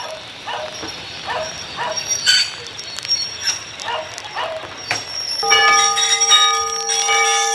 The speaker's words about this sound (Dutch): De grote witte massieve perronbel kondigt het vertrek aan van de stoomtram uit Twisk.